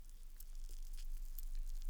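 Aphrodite foam fizzes and squishes against an ear during ASMR ear cleaning, making a soft, continuous crackling hiss with faint tiny pops throughout.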